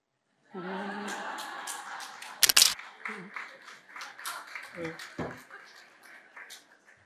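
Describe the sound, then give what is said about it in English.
A smartphone camera snapping a selfie gives a brief, sharp shutter click amid ongoing talking and light background activity. “And I swear I didn't plan this, but I need to do a selfie now.”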